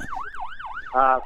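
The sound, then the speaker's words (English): A siren sound effect wails, its pitch sweeping up and down in three quick cycles before ending in a louder, buzzing horn-like blast. “I'll throw in some siren effect.”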